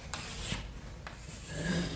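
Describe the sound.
Drawing on a board: scratchy rubbing strokes with a steady rasp and a few sharper accents, fairly even in loudness, with no voices.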